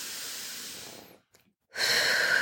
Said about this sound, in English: just take a deep breath like this.